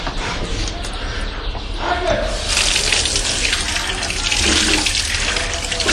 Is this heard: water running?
yes